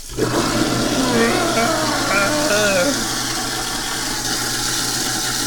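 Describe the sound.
A sink garbage disposal grinds rinsed tea leaves with running water. It makes a loud, steady whirring roar with rushing water that holds constant from start to end.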